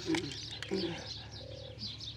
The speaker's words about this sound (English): the chattering of the birds all around us.